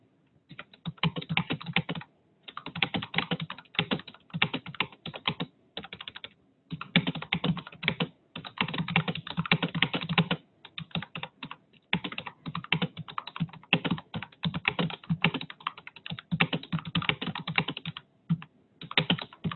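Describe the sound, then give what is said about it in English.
Steady typing on a computer keyboard while writing indented paragraphs in a word processor: many rapid keystroke clicks in uneven bursts separated by brief pauses, continuing throughout with no talking. “So now when I start typing,”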